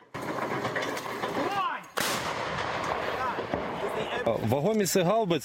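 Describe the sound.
Western-supplied howitzers operated by the Ukrainian army fire on Russian positions near Sievierodonetsk. A sharp, loud blast bursts out partway through amid dense, rumbling noise, while voices talk over it.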